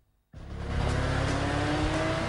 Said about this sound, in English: A silver Porsche rockets along the road through the pine forest.